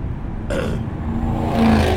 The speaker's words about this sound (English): Okay, Ford Mustang, fart muffler. You got a very fast car.